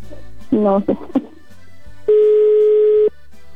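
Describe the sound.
A phone call going unanswered to voicemail: a brief burst of wavering tones, then a single long, steady electronic beep.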